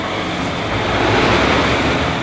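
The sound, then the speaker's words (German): Steady traffic noise as a truck turns off the motorway onto the B3 federal road and many cars follow, a continuous broad rumble and hiss of engines and tyres with no talk. “Ein LKW biegt aus Richtung Autobahn auf die B3 ab und viele Autos kommen hinterher.”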